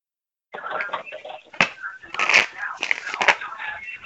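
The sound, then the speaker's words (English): Tarot cards are shuffled and drawn in a busy run of papery riffles and rustles, broken by a few sharper flicks and snaps. “Gonna go ahead and draw you a couple of tarots.”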